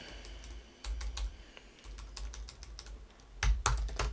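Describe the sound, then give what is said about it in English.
Someone typing a message on a computer keyboard: many quick, light key clicks in irregular bursts, faint throughout, with a denser flurry toward the end. “Just got to type a message a minute.”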